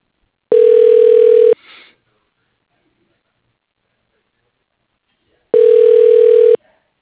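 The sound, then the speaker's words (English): Telephone keypad tones entering an extension code on a phone system: two steady, loud beeps, each about a second long, separated by a few seconds of silence. “so I have the option to punch in his code, and I did.”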